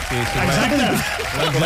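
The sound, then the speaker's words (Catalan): Applause from an audience for a guest, dense clapping throughout with a voice speaking over it. “Home, per tant, un aplaudiment per en Josep Maria Guanyol, per favor.”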